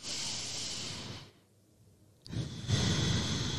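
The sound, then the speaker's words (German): A slow, deep breath is drawn in, followed by a short pause and then a long, airy breath out. Both breaths are loud and clear, and no one speaks. “Ich persönlich finde es total schön, einen tiefen Atemzug zu machen. Mach mal gerne mit.”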